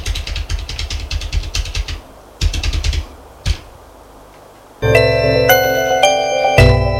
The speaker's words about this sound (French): Tu me donnes ton adresse, je vais la noter sur mon ordinateur.